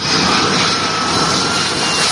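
An airplane jet engine roars in a continuous, broad rushing drone that stays level and loud from start to finish, with no voices.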